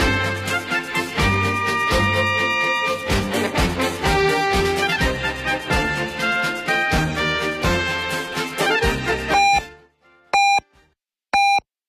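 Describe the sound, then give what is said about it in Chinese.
A radio hourly time signal marks 2 p.m. Beijing time. Full music plays and then stops, and a few short, high, pitched beeps sound alone in the quiet afterwards. “北京城市广播1073，请您准确对时，现在是北京时间14点整。”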